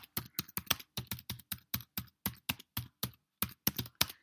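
Typing on a computer keyboard produces many quick, crisp keystrokes in short uneven bursts with brief gaps, fairly quiet and without other sound.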